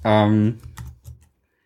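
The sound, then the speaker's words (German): Typing on a computer keyboard: a few brief, soft key clicks follow a short sustained vocal sound, then stop. “Nee, gar nicht. Ich tippe das jetzt einfach mal ein.”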